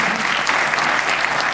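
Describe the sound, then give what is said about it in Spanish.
Strong audience applause honoring a writer and teacher, thick continuous clapping that stays loud and even from start to finish. “yo le pedí un fuerte aplauso a él, como escritor precursor”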